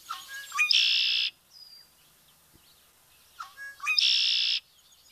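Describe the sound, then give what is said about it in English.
Two loud buzzy trilling calls from a red-winged blackbird perched in the reeds, each opening with short stuttering notes before a harsh sustained rasp, separated by a couple of seconds of near silence. “That's the sound of the red-winged blackbird calling from its perch in the reeds, signaling summer, to me anyway.”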